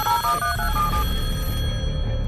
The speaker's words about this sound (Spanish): Atención. Llamada telefónica.